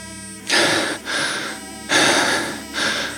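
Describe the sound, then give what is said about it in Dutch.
A man hyperventilating and struggling to breathe, with four loud, rasping gasps in quick succession separated by brief pauses. “Hij kon niet goed ademen en hij begon zelfs een beetje te hyperventileren.”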